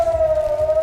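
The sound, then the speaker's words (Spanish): Air raid sirens sound across Israel before dawn after missiles launched from Iran were intercepted: a loud, steady single-pitched wail that holds level throughout. “Y este es el sonido de esta madrugada en Israel, es el sonido de las sirenas que saltaron después de que se interceptara el lanzamiento de misiles desde Irán.”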